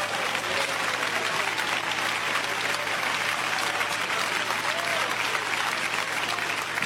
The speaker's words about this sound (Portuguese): Podem bater palmas para Jesus.